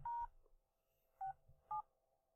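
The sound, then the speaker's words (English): Three faint, clean keypad beeps dial star 67 on a phone. A short pause follows the first tone, then the last two come close together. “If you try and guess the tones of each number... Which you're able to do. I've done it before. Yeah. That is scary. What you've heard is *67.”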